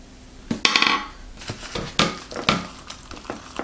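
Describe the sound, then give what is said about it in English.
A spoon scrapes and taps out Velveeta Original cheese sauce from a snack pack cup. It makes many short clinks and scrapes in an uneven rhythm, moderately loud, with no talking. “Kind of sticks to the spoon, so maybe you have to get another spoon here. I want to get all of that in there.”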